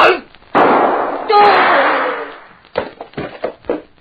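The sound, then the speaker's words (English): Gunshot sound effect in a radio drama: a loud blast, then a second burst, each with a long, hissing, decaying tail. Voices begin speaking afterward. “Very stupid of any man to try shooting at a man who is behind him.”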